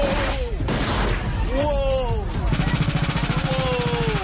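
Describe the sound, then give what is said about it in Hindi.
Rapid bursts of gunfire at a Latin cultural street festival in Toronto on a Saturday evening, a fast rattling run of shots amid dense crowd noise and raised, screaming voices, loud throughout. “तस्वीरें Canada के Toronto की हैं, जहां शनिवार शाम एक प्रसिद्ध street festival के दौरान अचानक गोलियों की तड़तड़ाहट से हड़कंप मच गया।”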